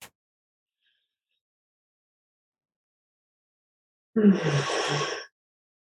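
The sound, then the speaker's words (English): One deep breath, taken as part of a group breathing practice, ends in a soft, airy exhale of about a second after a long stretch of silence. “And we can do that by taking three deep breaths together.”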